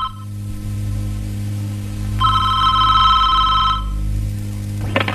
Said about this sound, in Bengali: এই ফোনটা একটু ধর না রে।